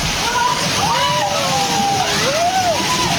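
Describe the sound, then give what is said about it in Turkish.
Flood water rushing and sloshing into a house in Vietnam: a loud, continuous, churning roar of moving water that never lets up. “Vietnam'da ise sel bir eve böyle daldı.”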